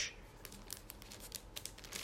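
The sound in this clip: Packaging on a live best-of CD is carefully torn open, making faint soft crinkling and small crackles that come in many quick irregular bursts with no talk over them.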